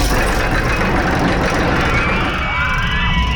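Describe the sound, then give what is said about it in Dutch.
A roller coaster ride at an amusement park, a loud, steady rumbling roar that fills the whole clip without a break. “als je de achtbaan hoort rijden”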